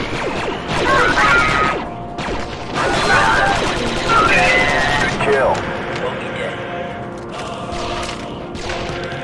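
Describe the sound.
Video game gunfire in a fight against droids: rapid bursts of shots with thuds and crashes, under a man's voice.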